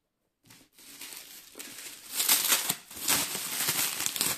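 Black plastic foil packing filler crinkles and rustles as it is handled and set aside, a fairly quiet, continuous crackling that swells and eases with the movements.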